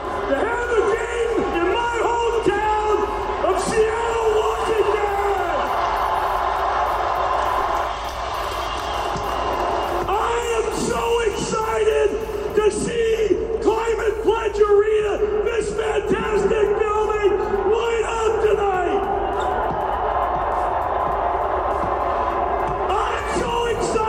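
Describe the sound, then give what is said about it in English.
A Seattle basketball crowd roars and yells at a preseason game, a steady, dense wall of cheering and whoops that carries through the whole stretch, with loud talk over it. “Going back to Seattle with a preseason game last night. Of course, the Sonics have now not been there for 15 years or so. And Ballmer's getting this Seattle crowd fired up for basketball.”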